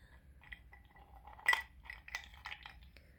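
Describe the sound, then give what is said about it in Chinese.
Ice cubes clink faintly in a few light, glassy taps, with one sharper clink standing out in the middle of the sequence. “把冰块含在嘴里，啊，冰块融化的水不许吞掉”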